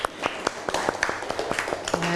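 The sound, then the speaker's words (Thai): Schoolchildren in a Thai classroom clap for a classmate who answered a question, a modest group of hands producing many distinct, fairly quiet claps in a loose, uneven rhythm. “ปรบมือเพื่อนหน่อยเร็ว”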